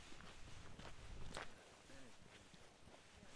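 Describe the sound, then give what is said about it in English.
Footsteps on a path winding down from a grassy hilltop toward a cove: faint, soft steps at an uneven walking pace. “The path to the cove winds down from a grassy hilltop. As we walk, the landscape becomes greener.”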